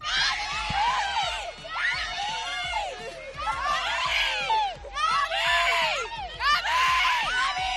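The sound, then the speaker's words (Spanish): Fans scream for footballer Gavi at a Barcelona training session, a dense crowd of shrill, high-pitched cries that swell and ease in waves, staying loud throughout. “Y el gran protagonista, sin duda, Gavi. Escucha cómo enloquecen con él. Es la Gavi manía.”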